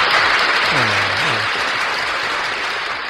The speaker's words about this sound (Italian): Radio ZL, alla quale mandiamo anche un applauso per aver scelto di condividere con tutte le altre radio questa trasmissione. All'applauso.